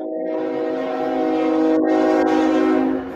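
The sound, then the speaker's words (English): A train horn blares as a train passes, a loud, steady, multi-toned blast that holds through nearly the whole clip over broad rumbling rail noise. It eases off only at the very end, with no voices. “This is why I struggle with mindfulness. The train goes by.”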